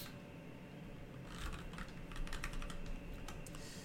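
Typing on a computer keyboard produces many faint, rapid clicks over a steady background hiss, growing slightly busier midway.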